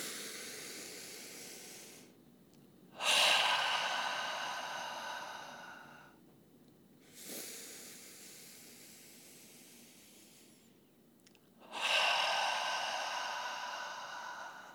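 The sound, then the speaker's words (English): Slow breathing in through the nose and out through the mouth: three loud, airy exhalations that each fade gradually, separated by quieter inhales. “we'll take three breaths together as being a part of that oneness, inhaling through the nose and out through the mouth. Ready? Inhale.”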